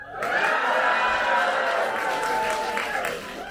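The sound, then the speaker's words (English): A live show audience in Los Angeles cheers and calls out a greeting together. The loud, sustained burst of overlapping crowd voices and applause eases slightly toward the end. “So we are doing our live show right now, and here's the audience. Everyone, say hello.”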